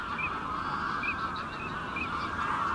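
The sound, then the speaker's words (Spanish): A few faint, high honks from a huge flock of wild geese in a marsh rise over a dense, steady wash of background noise. “El griterío de decenas de miles de gansos silvestres, los patos azulones, las bandadas de cercetas.”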